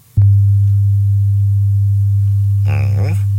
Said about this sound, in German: Der hat so eine spezielle Frequenz, exakt 100 Hertz, und der hört sich so an.